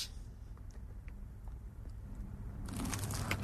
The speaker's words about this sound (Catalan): com sona una queixalada de croissant d'aquesta pastisseria, del millor croissant de mantega